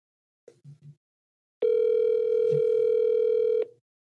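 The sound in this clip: Telephone dialing out: a few soft clicks, then a loud, steady dial tone lasting about two seconds that stops abruptly.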